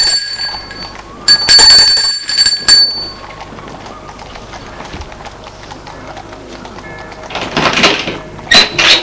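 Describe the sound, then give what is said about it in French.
An apartment doorbell ringing: a bright, metallic bell tone sounds for about two seconds, followed by quieter scattered noises and a few faint clatters near the end. “La mère va sonner à la porte de gauche.”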